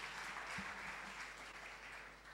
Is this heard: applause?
yes